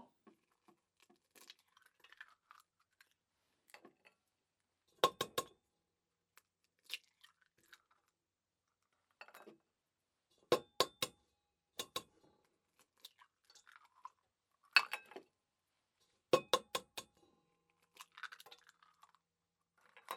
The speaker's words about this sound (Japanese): 卵、卵。卵をボウルに割って